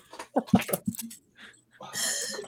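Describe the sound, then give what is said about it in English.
A cat gives a few short, quiet yowling cries, then a longer breathy, hissing burst after a brief pause. “For once, my dog is not the loudest on the podcast, guys. That's a cat.”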